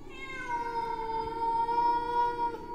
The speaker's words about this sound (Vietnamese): Cực chẳng đã, con mèo còn đứng ở trên giường mà kêu lên những tiếng ghê rợn lắm.